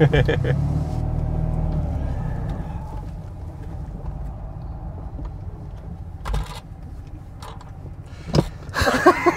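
Car driving off across a parking lot during a driving lesson, a low engine rumble that is strongest at the start and settles into a steadier, quieter drone, with a few brief knocks and clicks near the end.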